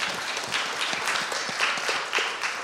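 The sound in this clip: Faint applause from a church audience: many quick, irregular claps blending into a soft, steady patter that lasts the whole moment.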